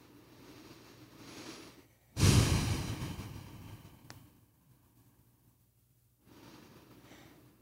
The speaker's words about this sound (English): And then just ending with three breaths.